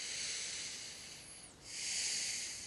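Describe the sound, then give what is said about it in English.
People taking a deep breath together make a soft, airy hiss that dips briefly midway and then swells again. “So if you'd like to join me in that, please take a deep breath.”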